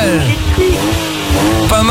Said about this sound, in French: Allez, jolie petite voiture, je suis sûr que tu veux rouler.